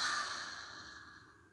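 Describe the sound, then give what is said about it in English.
A deep exhale through an open mouth during a guided breathing relaxation exercise. One long, soft, breathy rush of air starts fullest and gradually fades away over about a second and a half. “Open the mouth, exhale, release.”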